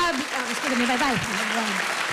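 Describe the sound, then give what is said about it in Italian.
Applause from an audience is a steady, dense patter of clapping heard under a voice talking over it. “Bravo, applauso.”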